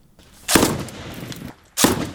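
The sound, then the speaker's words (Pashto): Gunfire rings out in street fighting between soldiers and armed fighters in a city security district of Lashkar Gah: two loud, sharp bursts, each trailing a long rumbling decay. “امنیتي سرتیري او وسلوال دیوال په دیوال تر کشونو کې یو پر بل ډزې کوي”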